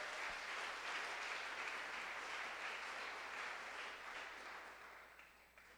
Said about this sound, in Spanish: Alguien dele un aplauso al Señor.